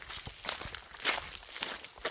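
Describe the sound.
Footsteps on the road into a landfill sound as a handful of faint, irregular crunching steps, each a soft, gritty scuff with uneven gaps between them.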